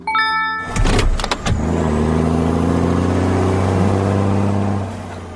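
A car engine revving and shifting up into second gear. A few sharp bursts at the start give way to a steady, loud engine drone that holds to the end.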